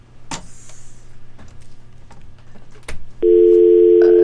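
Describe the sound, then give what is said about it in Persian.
After a phone call is cut off, a few clicks and faint line noise give way to a loud, steady telephone dial tone. “تلفن آقای خادم مثل که قطع شد.”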